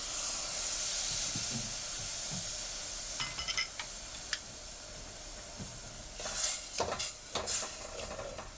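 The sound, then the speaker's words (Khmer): Coconut cream goes into a cooking pot. A faint, steady hiss is broken by a few soft clinks and splashy bursts in the second half. “ដូច្នេះអ្វីដែលនេះខ្ញុំត្រូវការដាក់បន្តទៅទៀតនោះគឺខ្ទិះដូងចាដាក់ខ្ទិះដូង”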